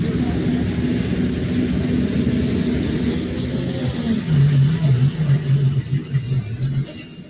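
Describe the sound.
The pulling truck Borrowed Time revs its engine at a truck pull: a heavy, loud engine rumble that builds in the second half into a strong, wavering, revving drone.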